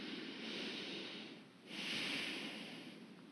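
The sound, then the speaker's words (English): A deep breath in and out: two long, soft, airy hisses of similar length, separated by a brief pause, both fairly faint and with no speech. “I want you to take a nice deep breath with me.”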